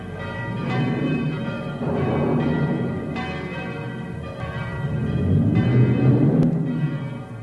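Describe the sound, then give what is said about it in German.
Village church bells ringing the storm-warning peal as a thunderstorm approaches, overlapping metallic strikes with long ringing tones in a steady, fairly loud clangour. “Und in Schellenberg hoben die Glocken das Wetterläuten an.”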